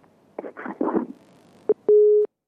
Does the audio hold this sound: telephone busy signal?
yes